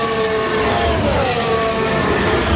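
Formula 1 race car on a straight during a wet sprint race in Austria, a loud, steady engine roar with a slowly shifting whine that holds throughout, with no voices.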